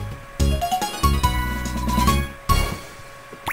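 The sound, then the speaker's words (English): A video game jingle plays for a superb rating on a rhythm test, with quick bright notes stepping upward into sustained chiming chords, then a final struck accent near the end. “when you get a superb, or superb in this case, you'll hear the jingle to the rhythm test in Rhythm Ridge, which sounds like this.”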